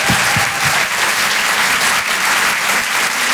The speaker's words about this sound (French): Je vous demande de faire un maximum de bruit, s'il vous plaît, pour Donald Jacksman.